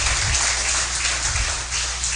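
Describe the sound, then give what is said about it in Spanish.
Spanish-speaking church audience standing to applaud after the sermon: dense, steady clapping throughout, fairly loud and continuous, with a low rumble underneath. “Démosle un aplauso a la palabra, pongámonos de pie.”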